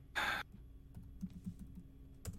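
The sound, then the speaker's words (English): Someone types on a computer keyboard, producing a few faint, irregular key clicks scattered through a quiet stretch. “Oh, well, that's not what I wanted to type.”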